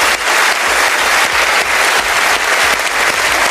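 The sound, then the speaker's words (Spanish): Loud, sustained ovation from the Cannes Film Festival audience for Barbra Streisand's honorary Palme d'Or, a dense, even roar of clapping that holds steady throughout. “la Palma de Oro de Honor fue para Barbara Streisand, que no pudo estar presente, pero quien envió un agradecimiento y fue ampliamente ovacionada por el público”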